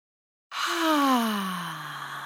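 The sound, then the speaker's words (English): A deep breath out during a guided breathing exercise, heard as a long, loud sigh with a voiced hum that slides down in pitch and trails off steadily. “And then just breathing into that, a nice big in”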